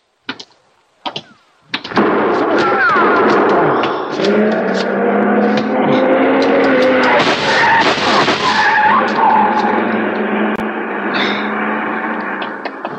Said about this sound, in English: Shooting. You've been hit. No, it isn't bad. Did you see him? I didn't see nobody. The car. See the car. The one that just gunned out.